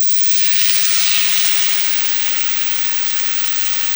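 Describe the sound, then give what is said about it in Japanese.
Meat-wrapped rice balls sizzle in a frying pan as the prepared sauce is poured in after the excess oil has been wiped off, giving a steady, even, bright hiss with no talking. “全体に焼き色がついたら余分な油を拭き取って合わせておいたタレを加えてください。”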